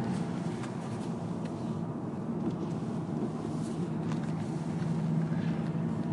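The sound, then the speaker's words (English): Car driving through very light snow turning to slush, a steady, even rumble and tyre hiss that holds constant throughout with no talking. “I'm driving through very light snow, an insignificant amount really, which is turning quickly to slush”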